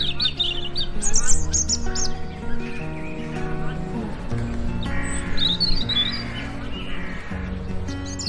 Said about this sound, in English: crows, magpies, pigeons, and countless other birds I can't begin to identify, sing their hearts out, filling the skies with what can only be described as beautiful music.